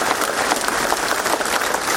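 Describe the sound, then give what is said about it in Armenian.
Mourners applaud at a funeral as a coffin is carried out of a cultural center building. The clapping is dense and continuous, a steady crackling roar with no break. “Փարաքարի համայնքապետի հուղարկավորությունն այսօր էր, նրա մարմինը մշակույթի տան շենքից դուրս են բերում ծափերի ներքո։”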